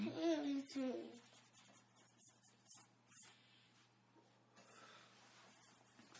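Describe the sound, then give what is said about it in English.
Pen or marker scratching across the pages of a book while drawing, a soft, steady scribbling rasp that carries on after a voice speaks briefly at the start. “I need to draw on this book.”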